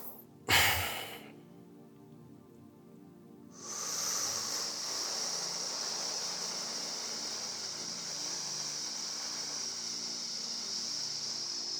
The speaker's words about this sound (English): And now I'm just breathing loud that you can hear it